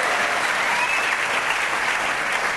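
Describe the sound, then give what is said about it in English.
Loud, dense audience applause welcomes Senator Dick Durbin, the senior senator from Illinois. The clapping holds at an even level throughout. “so let's give a warm, appreciative, healing welcome to the senior senator from Illinois, Mr. Dick Durbin.”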